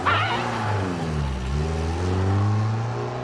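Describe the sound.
A car engine pulls away, a loud, steady motor hum whose pitch dips briefly and then climbs again as it revs.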